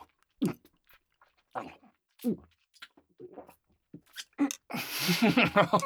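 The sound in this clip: Food being eaten: a few separate bites and chewing noises come in short bursts with pauses between them, then build into a longer, denser stretch of crunchy chewing at the end.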